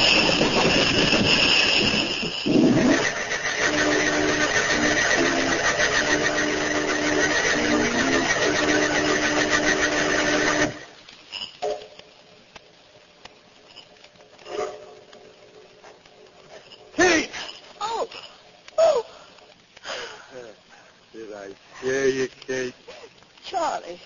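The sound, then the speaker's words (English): A car crash sound effect in a 1946 radio drama: a loud, droning engine roar with whining tones runs for several seconds and then cuts off abruptly. Voices talk afterward. “I've seen that crash back there just now, too.”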